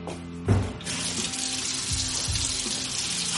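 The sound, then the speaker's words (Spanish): Water runs from a kitchen tap as someone drinks straight from it. A soft thump comes first, then a steady, even rush of water that continues to the end. “Se acerca al grifo y bebe a morro.”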